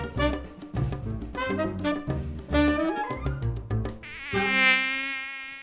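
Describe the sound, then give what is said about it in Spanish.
Mosquito buzzing, from the mosquito that spreads dengue: a wavering, high whine that comes in rhythmic bursts, then settles into one longer, steady vibrating tone at the end. “El mosquito que transmite el dengue”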